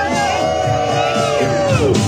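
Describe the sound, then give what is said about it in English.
A crowd of Democratic supporters cheers for a former senator at an Ohio early-voting polling place, with loud continuous whoops, shouts and high yells blending into one sustained roar throughout. “Democrats cheering on former Senator Sherrod Brown, who voted today as early voting began in his state.”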